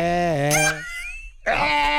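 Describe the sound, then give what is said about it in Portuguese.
A human voice imitates a goat's bleat with two nasal, wavering cries. The first slides downward in pitch and the second follows after a short pause. “O bode pisou na cabra. E aí? A cabra grita: "Bé, não pisa no meu pé."”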